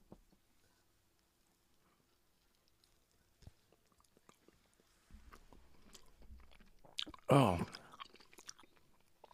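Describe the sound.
Chewing on a single slice of candy: soft, scattered bites and mouth noises, mostly faint, with one brief louder crunchy burst near the end.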